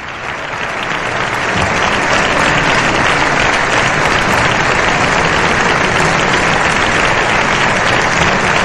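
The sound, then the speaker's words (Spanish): Long applause fills the Spanish Congress of Deputies during a foreign president's state visit, with dense, continuous clapping that swells over the first second and then holds steady and loud throughout. “Estos aplausos suelen ser largos. Es muy común en estos protocolos.”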